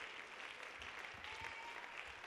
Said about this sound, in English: Let's clap our hands to the Lord and give him praise.